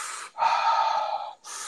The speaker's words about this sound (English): anyone who's ever done breath work has done certain sequences where maybe they're doing a circular or connected breath where it's like,